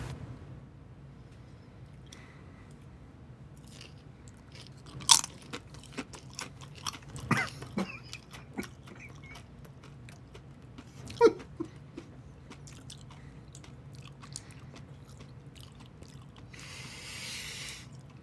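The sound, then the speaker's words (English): Crisp crunching as someone bites into and chews a chip with hot sauce. A few sharp crunches come in irregular bursts, fairly faint overall, with softer chewing noises between them. “now we're about to sample the chip.”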